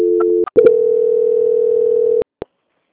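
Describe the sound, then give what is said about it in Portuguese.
A telephone call-transfer tone: a short steady tone, a brief break with clicks, then one long, even, mid-pitched tone lasting well over a second, which stops abruptly before a final click. “eu vou transferir você agora para o setor de qualidade do Banco Santander”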